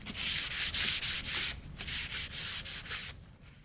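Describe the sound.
A plastic fork scrapes dust from the edges of office windows during a night cleaning shift, making many rhythmic, hissing strokes in steady succession.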